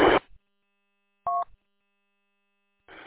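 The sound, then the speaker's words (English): A telephone being dialed to place a call: one brief dual-tone keypad beep between short noisy bursts, with long silences in between. “I'll be right back. I gotta make a phone call.”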